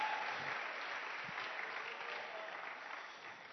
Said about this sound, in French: Est-ce qu'on peut acclamer le Seigneur? Je tunaweza kumshangilia Bwana.